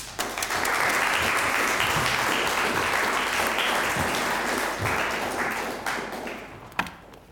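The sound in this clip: An audience at a lecture applauds to welcome the speaker: a thick, even wash of clapping that swells quickly, holds for several seconds, then tapers off, with a single thump near the end.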